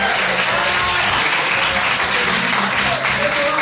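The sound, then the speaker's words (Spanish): Live audience applauding in a tavern: a loud, dense, unbroken roar of clapping mixed with crowd noise throughout. “Y para ello quiero que aplaudáis todos o que gritéis.”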